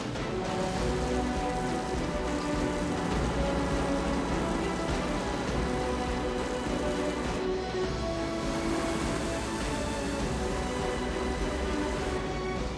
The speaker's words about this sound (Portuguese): Faixas de chuva. O quê? Olha só as ondas naquelas plantações. Droga, chuva horizontal.